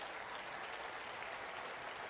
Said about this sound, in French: Et à l'avance, applaudissez pour ce que Dieu va faire dans cette province.